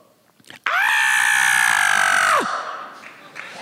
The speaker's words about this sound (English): That's how I scream. All right. I didn't need a producer for that. That's just how I scream.